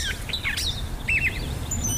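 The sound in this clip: Birds chirping in a few bright, high twittering calls and short trills over a soft, steady background hiss.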